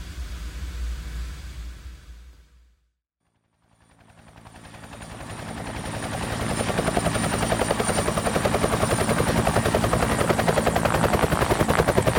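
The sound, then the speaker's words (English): A military helicopter landing on the edge of a town: after a brief fade to near silence, the rotor noise swells back into a loud, steady, rapid thumping chop with a broad engine roar that holds to the end. “Just what do you hope to accomplish landing on the edge of town? It's like I told you. This is an IDF aircraft”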